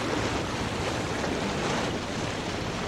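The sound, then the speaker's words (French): Ocean waves wash steadily against an ocean liner at sea near the Newfoundland Banks on a winter morning, a dense, even roar of surf and wind with no pauses or voices. “Paquebot de Grasse, proche des bancs de Terre-Neuve. Matin du mardi 25 décembre 1928. J'adore ces réveils en mer.”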